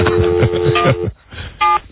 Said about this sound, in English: Dial carefully. Shh. Ah! You want me to do it? Off the air? Yeah. Yeah. Yeah. Our voices blend with the touch tones and it throws the tones off.